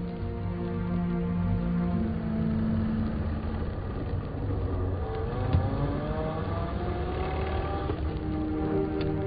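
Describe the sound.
Continuous engine drone of a car on a long drive up a mountain road in the chilly dawn, a steady hum whose harmonic tones slowly shift in pitch.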